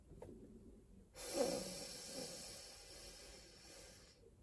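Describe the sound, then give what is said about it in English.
Slow, controlled breathing in a breathing exercise: a faint, soft intake through the nose, then a long, steady, hissy exhale through the mouth lasting about three seconds, quiet and alone. “inhale through our nose to a slow count of four, hold for a count of four, and then exhale through the mouth to a count of eight.”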